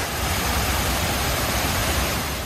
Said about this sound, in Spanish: El día continúa acompañado por la potencia del agua y cada vez llega más gente a visitar las Reflecting Pools, las fuentes del memorial